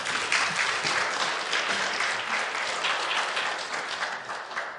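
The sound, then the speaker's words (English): Applause from an audience welcoming a speaker to the stage at a church service: dense, steady clapping that holds evenly throughout, with no voices over it. “Why don't you give her a warm welcome?”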